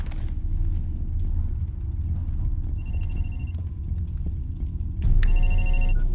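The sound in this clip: A telephone rings in two bursts of high, trilling electronic tones over a constant low rumble, with the second burst louder and clearer than the first.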